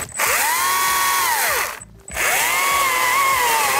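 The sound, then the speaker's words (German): A saw cuts pieces from a tree trunk with a loud, continuous whine. It runs in two long passes separated by a short pause, and the pitch climbs as each cut starts and drops as it ends. “Und schon sind einige Stücke aus dem Stamm gesägt.”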